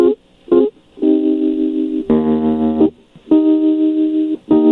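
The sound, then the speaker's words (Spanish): Electronic ringback music plays down a telephone line during a call: a simple melody of sustained synthetic notes, played in phrases separated by short silent pauses. “Les puso música de contestación.”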